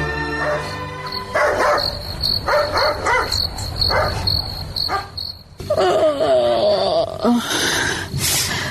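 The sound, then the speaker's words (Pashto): A dog barks at night against a constant high cricket chirping. The barks come in several irregular bursts, some quick and clustered, others more drawn out, and the steady insect trill carries on underneath. “ګورم چې دا سپی ولې غاپي، دا سینې چې خدای مکړه کور ته غال راغلی وي.”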